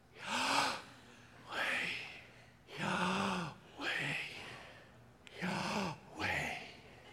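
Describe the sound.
Breathing done deliberately, alternating inhales and exhales: six quiet, drawn-out breathy bursts with a slightly hoarse, voiced edge, in a slow, even rhythm with short gaps between them.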